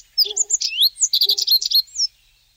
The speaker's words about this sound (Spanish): Ah, este es un triguero. Escribano triguero.